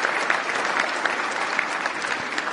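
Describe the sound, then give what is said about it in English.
An audience applauds a speaker at a political address. The clapping is loud and sustained, a thick, even wash of many hands with occasional sharper claps poking through. “And a special thanks to the 42% of you actually applauded.”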